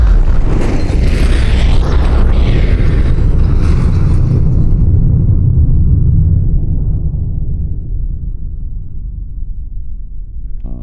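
Deep, heavy roar of a bomb explosion in a rail tunnel by Gare du Nord, loud from the start, with creaking, grinding rumble that slowly fades over about ten seconds.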